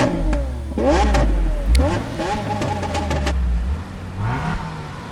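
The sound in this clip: A car engine revs in several surges, its pitch climbing and dropping as the throttle is worked, with a voice talking over the engine noise.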